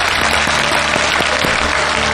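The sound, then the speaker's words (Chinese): Audience applause at a live studio event, a loud, dense and unbroken burst of clapping that continues evenly from start to finish. “同样把掌声送给他们”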